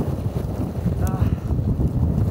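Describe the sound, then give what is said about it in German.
Strong wind blows across an open Nebraska campsite where a tent cannot be pitched, a steady, loud low rumble buffeting the microphone throughout with no letup. “Hier weht einfach alles weg, man kann kein Zelt aufbauen.”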